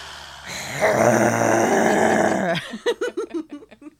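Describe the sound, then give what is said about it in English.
A long, loud, rumbling growl holds steady for about two seconds, then breaks into a quick run of short, harmonic grunting pulses that fade toward the end. “It's just straight growling”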